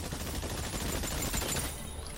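Gunfire in a shooting video game comes as a dense, continuous stream of rapid shots, loud crackling bursts with no clear gaps between them.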